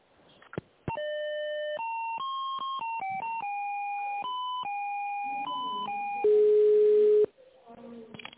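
An electronic telephone line tone plays while a business call is being transferred. A long run of steady beeping notes steps between higher and lower pitches, then a louder, harsher buzzing tone holds for about a second near the end.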